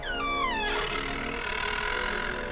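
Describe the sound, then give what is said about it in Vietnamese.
An old door creaks open with a high, drawn-out squeal that glides downward in pitch over under a second, then gives way to a steady sustained tonal drone. “Tôi đẩy nhẹ cánh cửa cũ kỹ, nó vang lên một tiếng kẽo kẹt nghe đến rợn cả người.”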